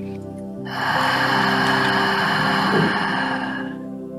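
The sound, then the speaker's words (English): A deep breath exhaled out through the mouth during a guided breathing exercise: one long, steady, breathy rush of air lasting about three seconds, over a faint sustained tone. “Inhale through the nose. Hold. And out through the mouth.”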